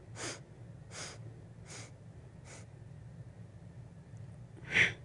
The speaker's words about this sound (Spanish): Así que más o menos para que tengan una idea, pues vamos a, practicar un poquito. Inhalamos.